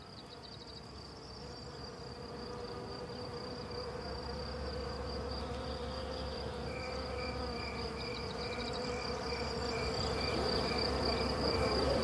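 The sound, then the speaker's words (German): Dense humming of countless wild bee swarms, a steady insect drone that swells slightly louder over time, with thin, high buzzing tones floating above it and no voices. “Sie entstammt keiner menschlichen Stimme. Es ist das rhythmische Flüstern der Bäume. Es sind die von Millionen wilder Bienenhorden gesummten Akkorde.”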